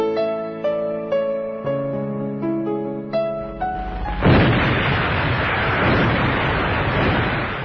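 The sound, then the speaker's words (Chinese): Cannon bombardment, the fire of British guns forcing open China's gates in 1840, enters after a few seconds of tonal music as a loud, sustained rumbling roar that continues to the end, with no voices. “1840年，英国人用大炮轰开了中国大门”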